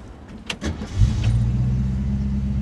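Car engine during a ride: a few light clicks and rattles, then the engine comes in as a loud, deep rumble. It holds as a steady low drone to the end, with no voices.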